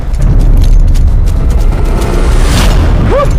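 A loud, low engine rumble from a car starting to drive off. It holds steady and continuous from start to finish.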